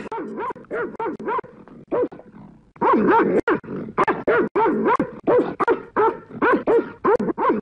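A cartoon dog in a Kurdish animated series barks and yips in many quick, sharp bursts, short clusters separated by brief pauses, with a few whimpering tones between.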